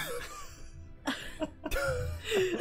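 A few sharp, rough coughs from someone with something stuck in the throat, coming in abrupt bursts separated by short pauses.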